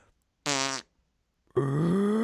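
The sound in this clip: A voice imitates a fart with a short, buzzy blat. After a pause, a longer, louder foghorn-like drone holds steady to the end.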